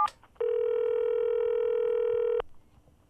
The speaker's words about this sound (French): Pour plus d'informations sur nos produits, tapez 1. Pour un autre service, tapez 2. Alors, je tape 1.